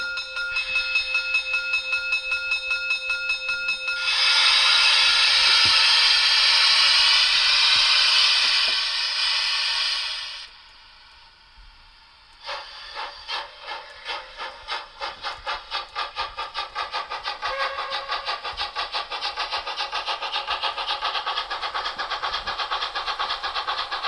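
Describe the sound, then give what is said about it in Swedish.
A small model steam train plays its locomotive sound while reversing: a steady tonal hiss, then a louder burst of hissing steam, a brief near-silent gap, and rapid rhythmic chuffing that continues to the end. “Och det ljudet kommer från loket? Ja, det kommer från loket. Nu backar vi.”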